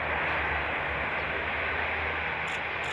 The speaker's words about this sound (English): From the land, a French maritime patrol aircraft takes off to help in the hunt.